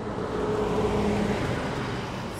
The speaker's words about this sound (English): So we point our car down I-75 towards our next stop.